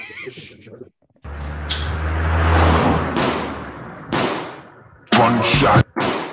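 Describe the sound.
A gunshot sound effect fired from a soundboard gives a few heavy booming blasts with rumbling tails, between stretches of people talking.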